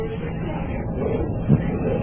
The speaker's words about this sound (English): We finally found our crickets thing. Crickets! The crickets.